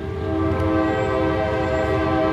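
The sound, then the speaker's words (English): A train horn sounds a long, steady, loud blast over a low rolling rumble as a train passes along the railroad running through downtown Main Street in Coshocton, Ohio, a small town. The horn holds its pitch throughout. “The railroad runs right through town.”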